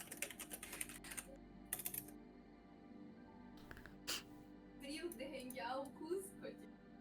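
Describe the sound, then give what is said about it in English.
Typing a sentence on a computer keyboard, faint rapid clicks of keystrokes in short bursts with pauses between them, while people talk. “I'll type a sentence. You say it.”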